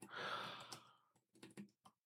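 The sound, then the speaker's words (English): Typing on a computer keyboard: a few soft, irregular key clicks in a brief cluster, faint and heard alone. “My typing has become so slow. It's unreal.”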